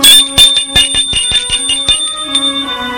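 Doorbell ringing: a loud electric bell with rapid, repeated metallic strikes for about two seconds, then a steady ringing tone that lingers and fades.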